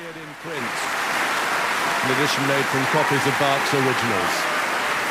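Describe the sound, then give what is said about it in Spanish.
Steady, enthusiastic applause from the Wigmore Hall audience after a solo violin performance of a Bach sonata, continuing throughout while a voice speaks over it. “Ya escuchamos al público del Wigmore Hall entusiasmado por esta hazaña de Christian Tetzlaff”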